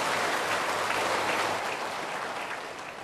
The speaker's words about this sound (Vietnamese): Xin quý vị hãy dành những tràng pháo tay và cùng lắng nghe.